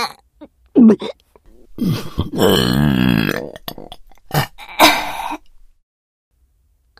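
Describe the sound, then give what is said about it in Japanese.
Several burps: short throaty belches come first, then one long, drawn-out, croaking belch with a wavering pitch, then more quick gulping burps separated by silence. “次の配信は、このゲップが止まった頃にやろっかな。”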